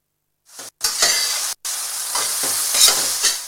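Food frying in a pan gives off a steady, bright sizzle as it is stirred, the hiss broken by two brief gaps early on, then continuing loud and unbroken.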